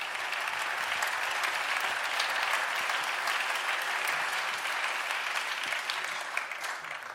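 An audience applauds the lighting crew at an evening band concert: dense, steady clapping that holds at an even level for about seven seconds and thins slightly at the very end.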